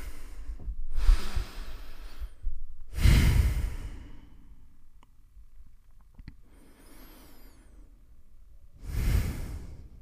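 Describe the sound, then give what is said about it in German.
A few deep, breathy inhales and exhales taken during a guided relaxation breathing exercise. Each slow rush of air is separated by quiet pauses, with no talking. “drei tiefe Atemzüge gemeinsam nehmen”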